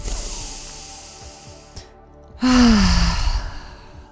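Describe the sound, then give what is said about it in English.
A deep breath is drawn in through the nose and let out through the mouth: a soft, airy inhale followed by a louder, breathy exhale carrying a brief voiced sighing tone that fades away. “Now let's breathe in deeply, in through the nose, out through the mouth, one time.”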